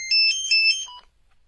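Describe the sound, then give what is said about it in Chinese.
A mobile phone ringtone plays a bright electronic melody of quick high notes for about a second, then stops abruptly and leaves near silence. “嗯，谁手机啊？ 我的，我的。”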